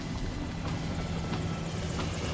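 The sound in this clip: A helicopter in flight gives a steady, dense roar of rotor and engine noise, fairly faint and unbroken throughout.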